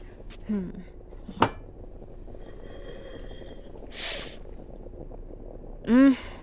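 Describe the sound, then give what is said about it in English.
A cooking pot being handled in a home kitchen: a few clinks and sharp metallic knocks, with a brief hissing burst partway through, over a low background hum. “Ooh, I better check on that pot.”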